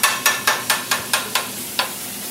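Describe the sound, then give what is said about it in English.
Chopping of steak on a restaurant grill for a cheesesteak: eight sharp, evenly spaced clacking strikes, with a slightly longer pause before the last one. No voices are present. “I'm just chopping the steak on the grill right now.”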